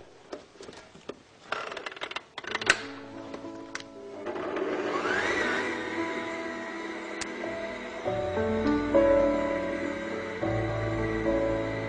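Bread dough is kneaded in a kitchen machine: a few scattered clattering knocks, then the motor starts up with a rising whine and settles into a steady, droning hum that thickens near the end.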